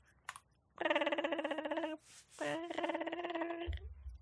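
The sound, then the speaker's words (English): A telephone rings in two long, warbling bursts with a rapid trembling buzz and a short gap between them, with faint background noise around the rings. “That's the phone noise. I hate it.”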